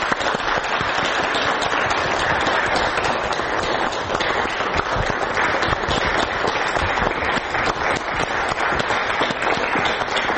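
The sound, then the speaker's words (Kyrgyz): An audience at a school talk on teachers' responsibility applauds to welcome a parent to the front. Many hands keep up a long, dense round of clapping at an even loudness for about ten seconds. “анда кол чабуулар менен тосуп алсак.”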